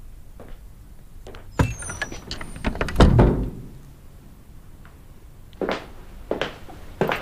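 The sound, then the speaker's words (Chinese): A door being shut lands as one heavy thud, with a few lighter knocks and clatters before and after it. “门关上。”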